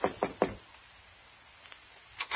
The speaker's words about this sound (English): so I knocked on the door